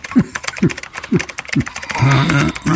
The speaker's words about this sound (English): What the hell are you doing, writing a book? No, my password is very long. Man, that's some long-ass password.